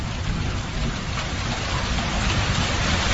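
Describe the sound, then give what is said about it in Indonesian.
Heavy rain pours down in a dense, steady hiss and patter, loud and unbroken from start to finish. “hujan turun dengan derasnya.”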